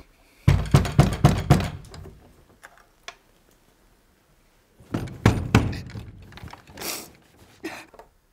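Heavy knocking on a door comes in two rapid flurries of several blows each, separated by a pause with one lone knock. A few scattered thumps follow at the end, with no voices.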